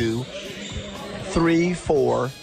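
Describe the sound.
Basketballs bounce during games in a gym with eight teams, a few dull thuds mixed into steady background noise and heard under people talking.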